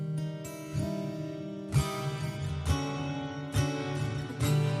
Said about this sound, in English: I have the freedom to play any notes in any combination my little fingers can reach on this guitar.